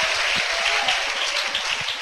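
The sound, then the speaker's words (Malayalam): An audience claps hands in praise of God during a church service. The clapping is quick, steady and fairly loud, without talk. “മനസ്സിലായവർ കൈയടിച്ച് ദൈവത്തിന് സ്തോത്രം ചെയ്യുക.”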